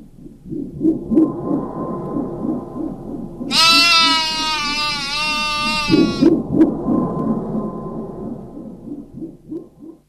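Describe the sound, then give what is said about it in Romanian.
A goat bleats in one long, wavering, high-pitched cry lasting nearly three seconds, rising out of a low, rumbling background that continues before and after. “Capra aceasta pe care o vezi aici.”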